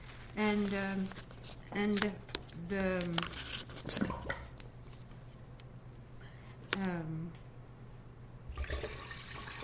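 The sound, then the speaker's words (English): Water is added to make a surf sound, giving sloshing, rushing water in short bursts, mostly under people talking. “and so we can hear the surf like that.”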